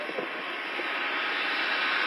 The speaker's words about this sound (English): Hearing a generator there in the background.